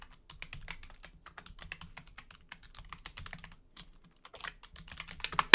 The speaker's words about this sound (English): I'll start right now. I'll type it.